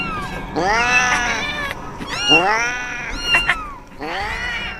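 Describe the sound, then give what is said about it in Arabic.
Cats lying on their sides in a heap meow and yowl in a few loud, wavering, drawn-out cries that follow one another with short overlaps. “الكوم اللي معمول للأسود ده كان عبارة عن قطط. قطط نايمة، ما بتتحركش، نايمة على جنبها لكنها عمالة تطلع الأصوات دي.”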